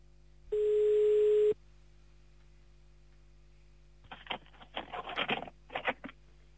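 A telephone call being placed, heard as one steady, mid-pitched ringback tone lasting about a second, followed later by a few faint, scattered bursts of sound.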